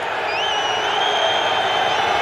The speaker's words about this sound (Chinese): 现在现场观众啊，世界杯比赛看到现在已经踢了33场，也知道这些新规了，也都在场边盯着这个球有没有发出来。尤其德国球迷刚才在嘘。